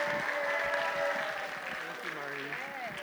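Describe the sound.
An elementary school audience applauds to welcome a speaker at a worship gathering, a steady crackling wash of clapping throughout, with a voice talking over it.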